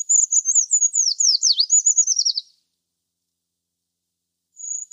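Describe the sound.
High-pitched bird song: a rapid run of thin, chirping notes that dip and fall, ending in a trilled flourish. Silence follows, then one short high note near the end.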